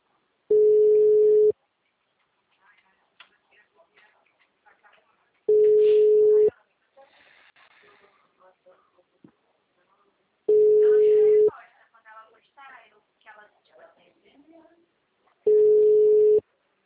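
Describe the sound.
A telephone tone after a dropped call: four long, steady, mid-pitched beeps, evenly spaced, with faint talk in the pauses between them.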